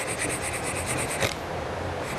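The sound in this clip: Quick, faint rasping strokes as the sharp edge of a piece of softwood is sanded round, a rapid rhythmic scratching for about a second that then gives way to a softer, steady hiss.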